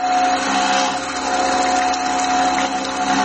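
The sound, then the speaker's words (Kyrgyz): A cream separator whirs as it processes fresh cow's milk in a village household, a continuous motorized drone with a steady high whine that holds at an even, fairly loud level. “сүтүн сепараторго салып, каймагын чыпкалап отурат”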